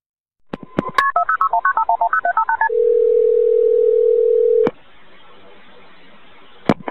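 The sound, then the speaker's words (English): Telephone keypad tones at the start of a recorded emergency call: a rapid run of many short beeps, then a steady single-pitched tone held for about two seconds that ends in a click, with another click near the end. “And I'm going to input the 911 tape here so you can hear it.”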